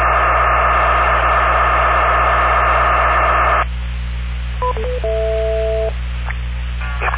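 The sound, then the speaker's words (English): Digital mobile radio interference bleeds into a radio input. A harsh, dense buzzing static runs for a few seconds, then gives way to quieter hiss with brief electronic tones, all over a steady low hum. “Sounds like digital mobile radio on the input.”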